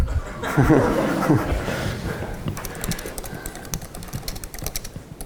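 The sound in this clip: Fast typing on a computer keyboard, done while chatting in front of a watching audience: many quick, light clicks follow brief laughter at the start.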